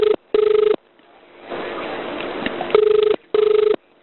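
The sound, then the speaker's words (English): A telephone ringback tone sounds on an emergency call being connected to a number in Queensland. It comes as a few steady, mid-pitched double-ring bursts, split by a stretch of low background noise. “that number's ringing for you”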